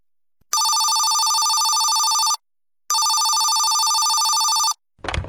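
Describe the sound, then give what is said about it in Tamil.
A telephone ringing with an incoming call: two long, loud, steady electronic bell rings, each lasting nearly two seconds and separated by a short silent pause. “யாரோ phone பண்றாங்கம்மா.”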